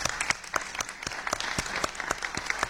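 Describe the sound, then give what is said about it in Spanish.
Audience applause fills a hall after a panel of presenters finishes, a dense, steady patter of many hands clapping with sharp individual claps standing out, sustained throughout without speech. “Yo creo que toda la sala les debe un aplauso por el trabajo que”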